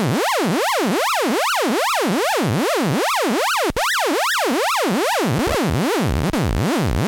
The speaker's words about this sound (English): Korg Monotron Delay is what it's called, and it's an analog synthesizer.